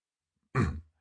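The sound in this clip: A man clears his throat once: a single short, rough burst that fades quickly, alone in silence.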